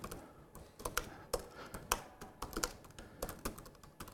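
Faint keystrokes on a computer keyboard while writing a document in a web browser editor: many quick, irregular clicks and taps in an uneven rhythm, with no voices.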